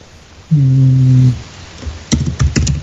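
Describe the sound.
A few sharp keystroke clicks from typing on a computer keyboard in a Skype chat come near the end, after a brief steady low tone and a short pause.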